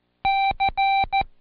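Morse code for the letter C, sent as four beeps in a long-short-long-short pattern, a steady mid-pitched tone with clean gaps between the beeps.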